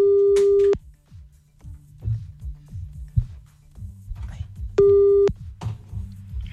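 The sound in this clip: Telephone busy tone heard while calling someone back: two long, steady electronic beeps about four seconds apart, loud and even in pitch, with quieter low sounds in the gaps between them.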